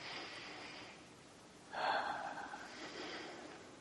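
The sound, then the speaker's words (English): A single comfortable breath taken with eyes closed during an EFT tapping session: one soft, airy rush of breath rising briefly near the middle of an otherwise quiet, hushed stretch. “We'll just take a comfortable breath.”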